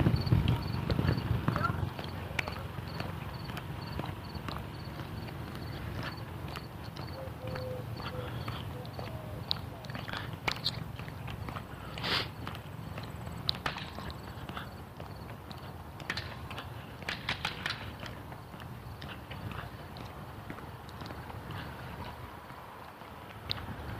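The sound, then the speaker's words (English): Roofers tapping away with hammers on a roof make many irregular, sharp knocks, some louder and some faint, scattered over a steady outdoor background. “Roofers tap-tapping away.”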